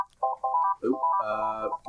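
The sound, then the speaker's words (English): An electronic telephone ringtone signals an incoming call. It plays brief melodic tones in quick succession, with short gaps between them, on its own without talk. “Are we just getting lit up here with phone calls?”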